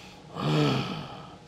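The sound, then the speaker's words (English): A single deep breath drawn in through the nose, a soft airy inhale that swells and then fades, faint and heard alone. “just breathe through the nose, even when you're running along. If you get really tight, you do this.”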